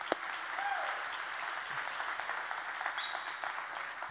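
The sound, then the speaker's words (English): A church audience applauds steadily to welcome online viewers, a dense, even wash of clapping that holds throughout. “Let's give them a great big Journey Church welcome. Come on, give it up for them.”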